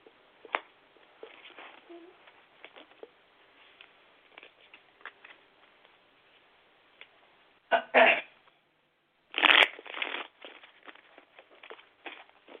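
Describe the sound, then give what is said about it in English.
Tarot cards being shuffled and flipped: soft, scattered paper ticks and light rustling, then two louder, dense bursts of riffling card noise with quieter flicking afterwards. “I'd just like for you to pull a card and see what message I have. Alrighty, I'm flipping them for you right now.”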